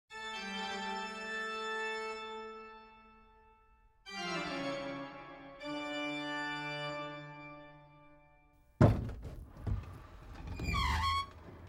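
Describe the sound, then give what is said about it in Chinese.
A small hidden door in a pipe organ room opens after several long sustained organ notes, with a sudden thud and then a short, squeaky creak. “啊，门开了，门开了！啊，我要赶快进去找找看。”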